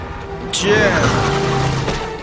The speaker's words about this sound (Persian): فقط اون جیپی که خیلی آشناس داره با سرعت بیاد سمتمون